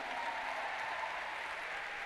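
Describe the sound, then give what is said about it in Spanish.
A church audience applauding for the Lord during a Spanish-language service, with steady, dense clapping from many hands held at a soft, even level. “Y dale un aplauso al Señor.”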